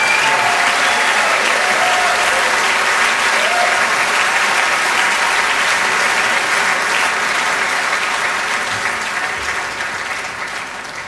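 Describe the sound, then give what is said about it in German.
A crowd applauds and cheers in a loud, dense wash of clapping for about eleven seconds, tapering off toward the end. “Geiles Jubel!”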